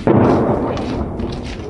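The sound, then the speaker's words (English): An explosion from shelling in a city at night: one deep, loud boom that starts abruptly and trails off into a long, rumbling decay, with no voices. “On the other side of the city, an explosion makes Nikolaevna jumpy.”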